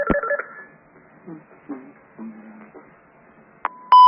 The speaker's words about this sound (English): Bear with me. I think you got a caller.